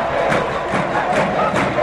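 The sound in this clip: Football crowd erupting after an Olimpia goal, a shot placed with the left foot into the keeper's right post: a loud, sustained roar of cheering that stays at full level throughout.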